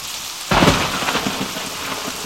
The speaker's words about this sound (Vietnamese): Thình lình, mưa đá đổ xuống, thoạt đầu là những hạt nhỏ hắt vào mặt chúng tôi, tiếp theo đó là cả một trận rào rào như đá.